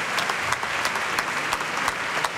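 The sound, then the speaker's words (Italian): Applause for a choir after a concert fugue: a dense, steady patter of many hands, with a few sharper individual claps standing out. “L'applauso per il coro,”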